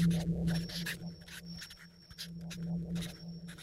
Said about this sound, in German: Herr Ping zog das gelbe Buch hervor befeuchtete die Bleistiftspitze mit der Zunge und malte Buchstaben in das Buch.